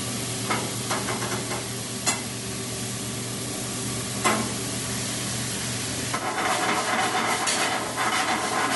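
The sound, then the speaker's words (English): A pat of butter sizzles in a hot pan with a steady frying hiss, broken by occasional light clicks and stirring, and grows louder toward the end. “And again, we're just going to finish that with a pat of butter.”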